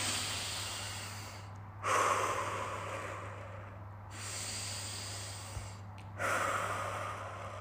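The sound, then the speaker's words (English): Deep, slow breaths: two long, loud airy breath sounds, each separated by softer, quieter stretches of breathing, over a steady low hum. “Take a couple of these deep breaths with me.”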